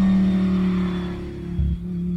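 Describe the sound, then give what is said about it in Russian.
A car accelerates and drives away, its engine giving a steady low drone with a brief deeper surge near the end. “быстро шмыгнул в машину, дал по газам”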